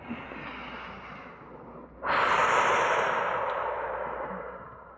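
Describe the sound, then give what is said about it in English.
Long, deep breathing in and out during a seated meditation practice: a soft breathy rush that swells sharply louder midway, then slowly tapers off. “take three breaths long, in and out and in and out and in and out”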